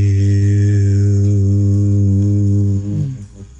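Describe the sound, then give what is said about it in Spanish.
A voice chants the spiritual word HU as one loud, low vowel. It is held steady for nearly three seconds and then trails away. “Se llama el canto de Hue. La palabra Hue se escribe H-U, se pronuncia J-I-U, suena así.”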